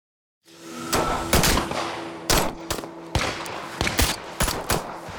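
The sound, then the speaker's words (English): Gunfire at a highly secure military shooting range outside Moscow in light snowfall: many loud, sharp shots in irregular bursts, some close together and overlapping, with no talk. “Location, a highly secure military shooting range just outside Moscow.”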